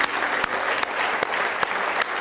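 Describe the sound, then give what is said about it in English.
Applause from a worship audience clapping hands in praise: a dense, steady patter of many hands, with a few sharper claps standing out, lasting throughout at an even level. “Give Him a good hand clap of praise if you love Him with all your heart.”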